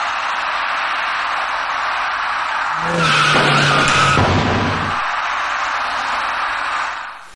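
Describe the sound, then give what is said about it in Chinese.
Tyres screech in a harsh skid during a serious night-time traffic accident at a city intersection involving an electric bicycle carrying two riders. The loud screech lasts about two seconds over a steady wash of traffic noise, which continues afterward. “就在这时，一起严重的交通事故发生了。”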